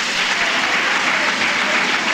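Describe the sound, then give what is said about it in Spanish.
An audience applauding during a church service, a dense, steady wash of many hands clapping at an even level throughout without a break. “Dele un buen aplauso a Jesús, porque Dios siempre da más de lo que pedimos.”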